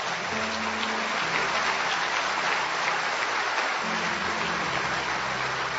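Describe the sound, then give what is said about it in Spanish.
A church audience applauding during a worship service, a dense, loud and steady wash of clapping that holds for several seconds, with low sustained tones running beneath it. “Que sea fuerte ese aplauso al Señor, iglesia.”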